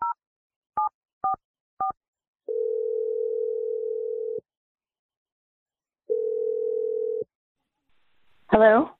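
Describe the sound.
A telephone dials a number with four quick, short keypad tones, followed by two long, steady ringing tones separated by a pause, and then a voice briefly answers at the end.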